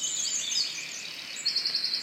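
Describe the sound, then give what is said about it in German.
Birds chirp and twitter in a forest with high, thin calls that run on without a break. A quicker, brighter run of chirps comes near the end. No voices are heard. “Die Stille des Waldes, leises Knacken und Knistern der Bäume und das Zwitschern der Vögel.”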